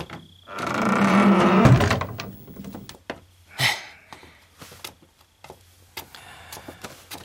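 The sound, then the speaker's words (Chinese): A door being closed: a broad, rough swinging scrape followed by a sharp thud, then several light clicks and knocks. “关门。”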